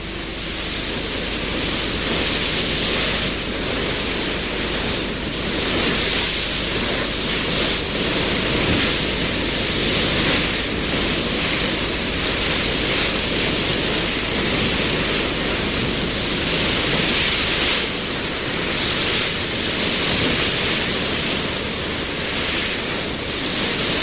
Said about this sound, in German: Mit 15 Knoten zerschneidet der Steven jetzt das Meer.